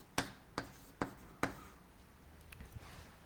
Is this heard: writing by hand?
yes